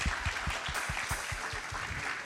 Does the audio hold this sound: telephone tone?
no